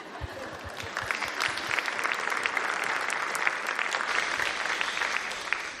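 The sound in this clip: Audience applause greeting a speaker as she comes on stage: dense, steady clapping from a large crowd that holds at an even level throughout, with no breaks.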